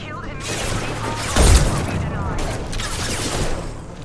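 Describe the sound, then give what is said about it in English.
Rapid volleys of gunfire in a video game as shots are fired at Krogan. The dense, crackling bursts continue throughout, with a heavier boom near the middle. “Well, they're shooting at Krogan, so I'm gonna shoot not at Krogan.”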